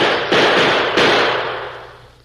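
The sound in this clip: Rifles fired together at buffalo during a hunt give two sharp, loud blasts roughly two-thirds of a second apart. Each leaves a broad, rushing tail that fades gradually over the next second.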